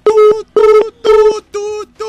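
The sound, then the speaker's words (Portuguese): A telephone line tone after a dropped call: buzzy, flat-pitched tone pulses repeat in a steady rhythm, each about a third of a second long with short gaps between them. The pulses are loud and come alone, with no talk. “caiu sua ligação. Vamos tentar falar de novo com você, do Jardim Souza”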